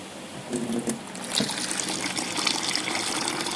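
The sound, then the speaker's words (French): Water pours into a container for making granita, about three litres going in. A bright, splashy gush builds after the first second and keeps up a continuous rushing trickle to the end. “il faut mettre 3 litres d'eau. Et ensuite verser le sucre qui est dedans.”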